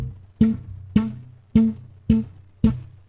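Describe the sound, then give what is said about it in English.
Bass guitar string slapped with the thumb left resting on it after the hit: short, deep, muted thuds that die away quickly, repeated at an even pace about every half second, with nothing else heard. “I hit the last fret of the bass. And you don't want to hit the string where it stops, because it sounds like this.”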